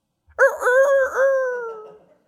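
A rooster crows once, a single drawn-out harmonic call with a sharp start, a wavering middle and a slowly sinking, fading tail, heard alone.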